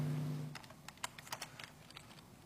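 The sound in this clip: Quick, irregular taps on a computer keyboard while content is copied and pasted, faint and spaced unevenly, after a brief low hum at the start.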